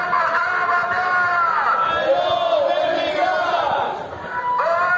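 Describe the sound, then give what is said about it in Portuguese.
Crowd chanting at a general strike protest in As Pontes, called by the CIGA union for four hours: many voices chant loudly and continuously, dipping briefly near the end before rising again. “Así soaba este mediodía a protesta de folga xeral que a CIGA convocou durante 4 horas na localidade de coruñesa das Pontes”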